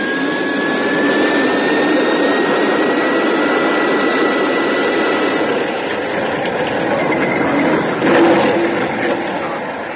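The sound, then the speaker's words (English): A spacecraft crash-landing among rocks gives off a loud, steady roar like a jet engine that holds almost unbroken throughout, with a brief, slightly louder burst near the end. “Ground's coming up. There are too many rocks. I'm aiming towards a small crater. Stand by for crash landing.”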